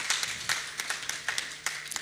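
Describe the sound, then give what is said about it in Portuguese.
Faint, scattered hand clapping from a small audience at an African Women's Day celebration. Separate claps land in an uneven patter throughout. “Por isso gostava de pedir a todos mais uma salva de palmas para todas as mulheres.”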